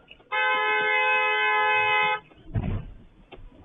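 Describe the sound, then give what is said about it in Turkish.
A car horn blares at an intersection in one long, steady, loud honk lasting nearly two seconds, followed by a brief burst of rumbling traffic noise. “Sonradan savcı olduğu öğrenilen sürücü de defalarca kornaya basarak minibüs sürücüsüne tepkisini gösteriyor.”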